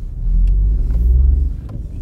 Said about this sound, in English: As you can hear, we're driving back at the moment, and there was a less than considerate motor user there